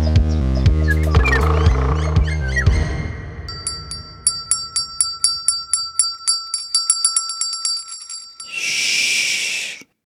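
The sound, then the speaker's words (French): Bright, rapid ringing of a small handbell passed from hand to hand among students during a dance performance; many quick strikes in a steady rhythm, loud and clear, following a few denser tonal notes at the start. “Une petite clochette passe de main en main.”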